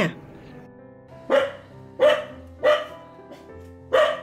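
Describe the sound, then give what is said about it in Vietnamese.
A yellow-furred mountain dog barks in a bamboo forest, giving several sharp, loud barks at a steady pace with short pauses between them. “Trong rừng trúc đột nhiên vang lên một tràng tiếng chó sủa.”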